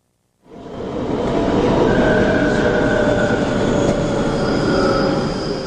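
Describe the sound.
A subway train rolls into a station with a loud, rumbling roar that starts abruptly and holds steady, thin high wheel squeals sounding over the rumble.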